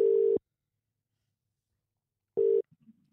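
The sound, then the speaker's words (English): Telephone ringback tone heard while calling someone back on a hotline: two steady, mid-pitched buzzing bursts separated by a long silent pause, followed by a few faint soft clicks. “should we try and give this person a call back, see if they'll pick up?”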